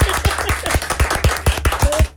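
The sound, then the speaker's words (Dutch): Applause in a radio studio: many even, evenly spaced claps in a steady rhythm, fairly loud and with no voices over them. “Ik vind dat we daar wel even een applausje mogen voor laten horen hier in de studio.”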